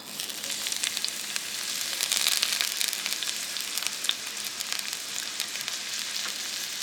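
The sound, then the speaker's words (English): Chopped onions sizzle in hot olive oil in a big red Dutch oven, a steady hiss with a few scattered crackles and pops at a fairly quiet level. “And then I'll get Hannah poured some olive oil into her big red Dutch oven. It sounds lit. There we go. And dropped the chopped onions into the hot olive oil.”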